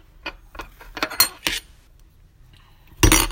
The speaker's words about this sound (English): And this is hazelnut flavored. Mm. So now we're going to mix.